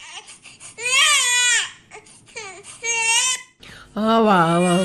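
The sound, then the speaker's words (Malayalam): A baby boy cries in three loud, high wailing bursts, with softer whimpers and short gasping breaths in the gaps between them. “ഇവൻ കരച്ചിൽ നിർത്തുന്നില്ല, എനിക്ക് വയ്യ.”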